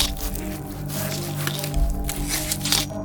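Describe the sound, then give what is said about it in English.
Wet squelching of a knife cutting into a corpse's flesh on a table and draining blood, a soft continuous squishing with a few slightly stronger pulses over a steady low drone. “First, the knife. Cutting the brachial artery, draining the blood.”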